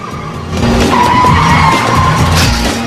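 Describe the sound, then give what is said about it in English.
A car chases through an alley with tires squealing and the engine roaring. A loud, sustained skidding screech begins about half a second in and continues to the end without talk. “Maintaining his speed, Luke sprints into an alley, with the car headlights blazing, hot on his tail.”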